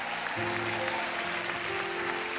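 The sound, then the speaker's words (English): Congregation applauding first-time guests at a church service, a steady wash of clapping that holds at an even level from start to finish. “Stand up, first-time guests. If it's your first time, don't be shy. We want to look at you, embarrass you just for a second. Y'all give it up for our first-time guest.”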